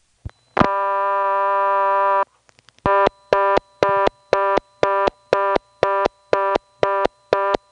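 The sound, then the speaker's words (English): Telephone reorder tone on an XY step-by-step switching exchange after another digit is dialed: a steady dial tone, a few dial clicks, then many fast, evenly spaced on-off beeps repeating loudly to the end. “Now I'm going to pick up and dial another digit, and you'll see that it goes to reorder right away.”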